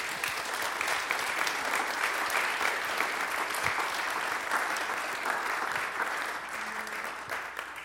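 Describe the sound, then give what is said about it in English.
Applause from the audience at the 2023 Rothko Chapel Óscar Romero Award Ceremony, a dense, steady round of clapping that holds for about eight seconds and thins slightly at the end. “Can we please give them one more round of applause?”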